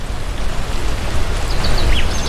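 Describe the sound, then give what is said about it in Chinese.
Heavy rain falling in the mountains, with large drops coming down as a loud, dense, steady hiss. A few faint high bird chirps come through near the end. “豆大的雨点就打了下来，我们不得不停下脚步找地方避雨。”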